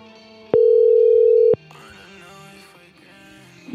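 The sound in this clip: A telephone dial tone sounds while a call is being placed back. It is one steady, loud, mid-pitched tone lasting about a second, followed by quieter, mixed background sound.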